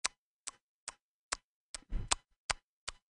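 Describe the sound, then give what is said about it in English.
A clock ticks at a clock shop: eight sharp, evenly spaced ticks about twice a second, crisp and quiet, with a brief low rumbling noise between the fifth and sixth ticks. “The ticking was, you know, that go”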